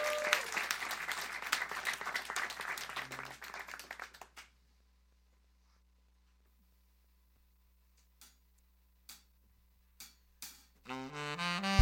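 Audience applause welcomes a musician at a live music session. Dense, steady clapping lasts about four seconds and stops abruptly. Near-silence follows, then a few soft clicks, and music begins at the end.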